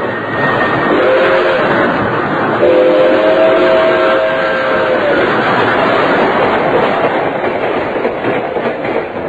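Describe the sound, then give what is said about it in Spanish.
A speeding train roars with a steady, loud rumble throughout. A whistle sounds over it in two sustained blasts during the first half. “Porfirio Cadena sabía que el tren era veloz y que rápidamente lo acercaba a la civilización”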